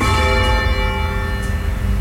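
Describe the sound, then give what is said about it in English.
A church tower bell rung by pulling its rope gives a loud, sustained ring with steady layered overtones that hold for the whole stretch, over a continuous low rumble. “I'm going to come over here and have a ring on the floor. Down bell, you feel the difference.”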